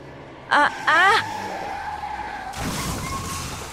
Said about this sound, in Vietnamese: Vừa đi thầy Khánh vừa suy nghĩ, không để ý có một chiếc xe ô tô bán tải đi trái chiều đang lao đến chỗ thầy với một tốc độ rất nhanh